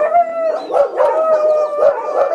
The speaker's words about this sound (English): Shut up, dogs!